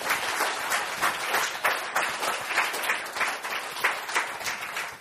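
An audience welcomes a guest with warm applause: dense, continuous clapping that surges and dips in small waves throughout.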